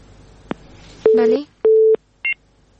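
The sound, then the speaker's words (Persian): A busy tone sounds after a phone call is cut off. A sharp click comes first, then two steady, evenly pitched beeps, then a short higher beep, all on a quiet line. “بلی خب تماس اینا قطع شده”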